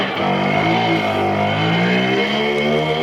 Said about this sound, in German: Deshalb will die CDU schon bald einen neuen Anlauf über den Bundesrat starten, damit künftig noch mehr Simsons mit 60 km/h über die Straße knattern.